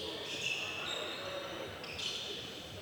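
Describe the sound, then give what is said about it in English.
A basketball is slapped and bounced on a court during a game, heard under steady crowd noise and arena din with some bright, high squeaks. “slap of the basketball, universal trigger to get people moving”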